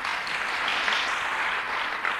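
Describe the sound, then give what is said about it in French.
Audience applause greets the women named Madeleine on their feast day, a dense, even patter of many clapping hands that runs steadily throughout without voices. “eh bien, on vous applaudit parce que c'est votre fête.”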